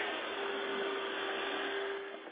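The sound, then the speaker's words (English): A vacuum cleaner runs with a steady, faint whirring drone and a thin constant whine on top, holding unchanged until it dips slightly near the end. “And now my friend is vacuuming, so I got to deal with a little technological thing.”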